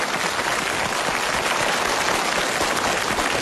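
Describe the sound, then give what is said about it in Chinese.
Steady audience applause after a stage act on an entertainment show, a thick, even wash of many hands clapping that holds at one level throughout without pauses or voices. “观众朋友们，给点掌声鼓励！”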